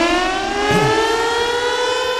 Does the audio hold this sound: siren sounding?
yes